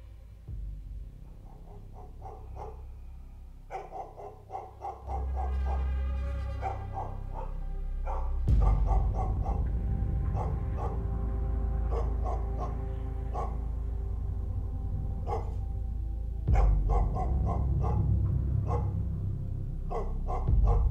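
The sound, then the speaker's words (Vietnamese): Dogs barking intermittently in a village as darkness falls, many sharp barks arriving in irregular bursts with gaps between them, over a steady low background. “Đầu đầy những tiếng chó sủa nhát gừng hướng thẳng về chỗ đại viện.”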